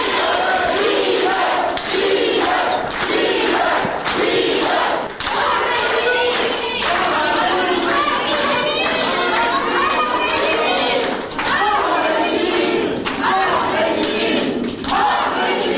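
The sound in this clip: Applause and cheering from supporters and friends giving a standing ovation to detainees arriving at a court hearing: dense, continuous clapping mixed with shouting crowd voices, loud throughout.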